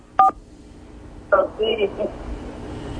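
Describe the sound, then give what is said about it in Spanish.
Touch-tone dialing on a telephone calling in to a radio program: two short beeps separated by a pause over a low line hiss, followed by faint murmuring sounds. “Bueno, empezó a marcar.”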